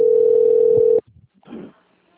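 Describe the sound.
Telephone ringback tone on an outgoing call: one steady, even, mid-pitched tone holds for about a second and then cuts off abruptly, followed by a few faint, brief noises and near silence.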